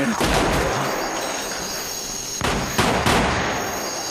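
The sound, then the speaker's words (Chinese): A gun goes off by accident, a few sharp, loud cracks breaking through a hissing background. “哎呀，爹，这么好的枪还能走火啊？”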